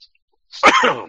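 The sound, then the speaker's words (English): A person coughing and choking: after a short pause comes one rough, strained burst of coughing and throat-wrenching sputter that stays loud for about half a second before trailing off. “Excuse me, sorry guys, I'm like choking here.”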